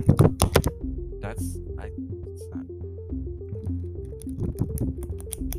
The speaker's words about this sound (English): Like, here, let me see if I can get these flashcards to make a sound into the mic.